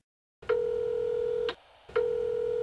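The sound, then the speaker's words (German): Electronic beeps from a telephone answering machine: a steady pure mid-pitched tone lasting about a second, a short gap, then an identical tone starting again. The tones are moderately loud, with no voices. “Sie hören eine Nachricht auf dem Anrufbeantworter.”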